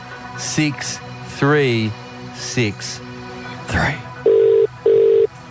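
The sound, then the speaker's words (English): Two steady telephone ringing tones, a quick double burst, follow the dialing of a number to call a contest winner. Voices talk before the tones. “We are dialing.”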